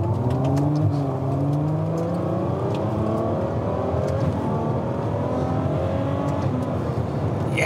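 Engine roar of a Ferrari 812 Superfast sports car accelerating, a loud continuous whine and rumble whose pitch climbs again and again as it pulls hard, with no talking over it.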